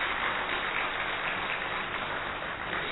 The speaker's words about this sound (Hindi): तो हम सभी उनका करतल ध्वनि से स्वागत करते हैं।